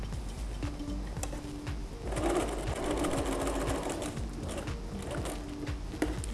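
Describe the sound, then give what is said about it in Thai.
A sewing machine stitches fabric for a bag being fixed to an apron, its rapid, even mechanical chatter running continuously at a steady rhythm and level for the whole stretch. “เราก็เริ่มเย็บนะคะพอเราเย็บเสร็จเราหยุดสักนิดนึงแล้วก็ย้อนขึ้นไปนะคะ”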